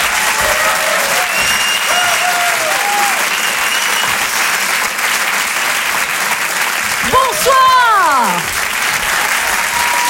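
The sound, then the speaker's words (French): Audience applause welcoming a comedian to the stage at a stand-up show: a dense, steady roar of clapping that fills the whole stretch, with a few cheering voices rising over it near the end. “S'il vous plaît, un maximum de bruit pour elle.”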